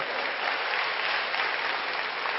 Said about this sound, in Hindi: तालियां बजाइए प्लीज।